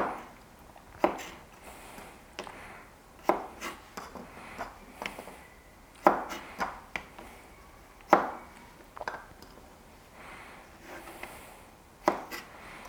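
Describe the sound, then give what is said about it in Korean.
A knife thinly slices garlic cloves, producing many crisp, irregularly spaced cuts with short quiet gaps between them. Some strokes land in quick pairs. “마늘을 썰어줍니다. 마늘을 되게 얇게 써는 거를 중요시하는 분들이 계시더라고요.”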